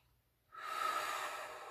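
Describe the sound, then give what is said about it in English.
A single deep breath taken during a calm focusing exercise: a steady, airy rush of air rises after a brief silence and holds evenly to the end, with no talking. “Take a deep breath in, a deep breath out.”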